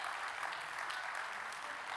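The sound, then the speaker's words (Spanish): An audience at a religious service applauds in a faint, steady wash of clapping that lasts the whole clip. “aplaude ahora al Señor”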